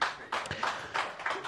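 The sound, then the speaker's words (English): Light clapping from a live audience: a few uneven, scattered bursts, fairly faint. “let's not clap like it's fucking golf”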